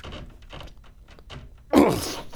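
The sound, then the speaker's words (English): A heavy door fitted with a wheel is lifted, with faint shuffling and scraping followed by one loud, deep thud as it drops, the sound then fading slowly. “then you have to lift this bloody door. Okay, now this wheel should drop.”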